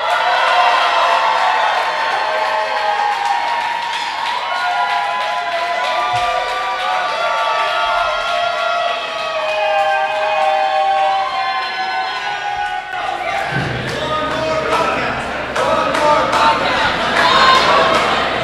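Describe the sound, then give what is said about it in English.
About 150 people at a Foursquare event cheer loudly and without pause, with whoops and shouts blending into an enthusiastic roar. “Did you hear that? Live audience for the first time. I think that was like 150 people. I was going to ask how big a room that was. They sounded enthusiastic.”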